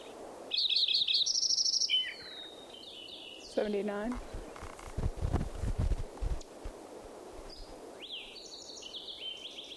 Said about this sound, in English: Fox Sparrow mixed in there.